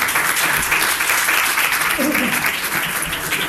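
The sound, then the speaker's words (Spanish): Audience applause at a festival panel talk on role-playing games, with dense, continuous clapping that stays loud and even for the whole clip. “yo creo que también este se merece algún aplauso”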